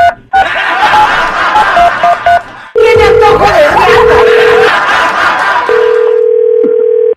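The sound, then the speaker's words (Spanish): A telephone number is dialed: a run of short, evenly spaced beeps gives way to long, steady electronic tones, with brief chuckling heard between them. “Ok, vamos a marcar, ¿ok?”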